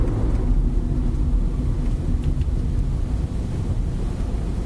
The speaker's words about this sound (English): It's 8:40, and we've just driven past Butser Hill on the A3.